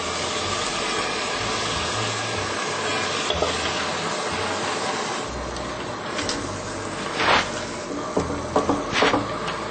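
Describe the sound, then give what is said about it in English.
Fresh mung bean sprouts stir-frying in a hot pan: a steady, loud sizzle runs throughout, with a few sharp scrapes and clatters of stirring toward the end. “So I just put the mung bean sprouts now.”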